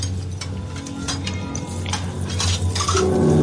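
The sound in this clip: Plates being washed by hand, with light clinks and clatters of dishes and cutlery over a steady background hum. There is no talking.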